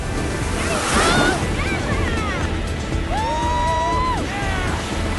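Ocean waves break and roll in a continuous loud rushing wash as a surfer rides along the face of a cresting wave, the roar holding steady from start to end.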